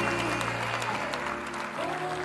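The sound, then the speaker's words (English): Congregation clapping hands in praise at a church service, a dense, steady wash of applause from many hands. “Oh, we give you a hand clap of praise.”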